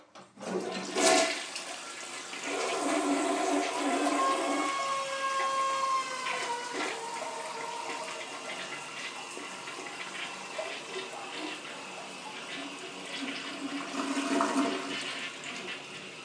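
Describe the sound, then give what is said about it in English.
A loud, 'angry' toilet flushes with a forceful gush of rushing water, then a shrill whistling tone rides over the draining roar before fading, and a second surge of water rises near the end. “And here we go with the angry toilet.”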